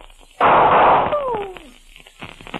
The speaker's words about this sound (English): Put down that gun!